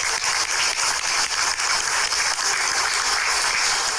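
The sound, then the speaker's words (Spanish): Dense applause greets a school subdirector introduced at a public education event: a loud, continuous wash of clapping that holds steady without pauses. “Fuerte los aplausos para”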